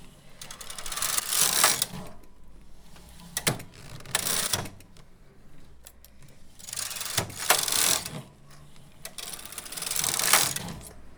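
A domestic knitting machine working yarn, its carriage sliding across the needle bed in several rattling, ratcheting mechanical sweeps with quieter clicking gaps between passes, alone without talk.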